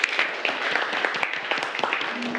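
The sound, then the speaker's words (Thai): Students in a classroom clap for a classmate who has just answered a question, many sharp, uneven hand claps overlapping into a moderate, crackling burst of applause. “ปรบมือให้กับเพื่อนด้วยครับนักเรียน”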